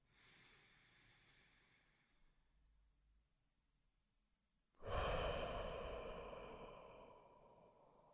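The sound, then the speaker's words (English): One slow, deep breath during a guided relaxation exercise: a soft inhale through the nose for about two seconds, a pause, then a long, louder exhale out through the mouth that gradually fades. “let's all take a deep breath together. In through the nose, out through the mouth.”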